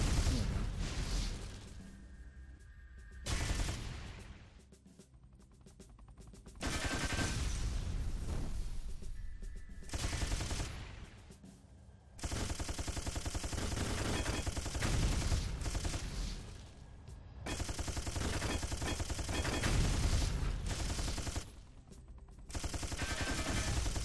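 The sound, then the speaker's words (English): Rapid gunfire from a shooting video game, dense overlapping bursts of shots and blasts that run almost continuously, broken only by a few short lulls. “I care more about just shooting everything.”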